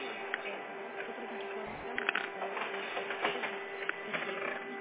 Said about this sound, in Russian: сейчас идет принтер, я ничего не слышу